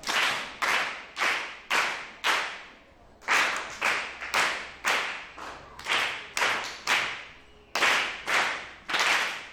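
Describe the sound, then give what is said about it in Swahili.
Sharp, loud hand claps given in a class to praise a child, struck in evenly spaced rhythmic rounds. Many claps sound in total, with no talking. “pia ni makofi matano huku kwa mtoto.”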